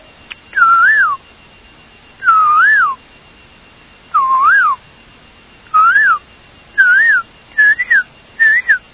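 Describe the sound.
A person whistles an imitation of a small, all-black songbird's morning song. A clear, wavering phrase repeats seven times, and the later phrases come shorter, quicker and slightly higher.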